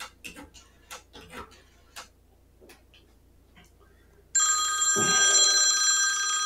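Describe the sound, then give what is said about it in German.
A telephone bell rings loudly and continuously, starting after a few sharp, irregular ticking taps and carrying on to the end. “Müsste eigentlich gleich der Andi anrufen.”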